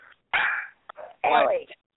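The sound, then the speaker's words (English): Dog barking: two loud, rough barks with a few shorter, softer yelps between them, heard on their own. “Quit barking.”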